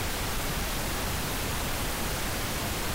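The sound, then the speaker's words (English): Pink noise from a synthesizer forms a dense, steady hiss spread evenly across the range with a fuller low end. It holds one constant level from start to finish, with no other sounds. “To demonstrate, here's a bit of what's called pink noise, generated from a synth.”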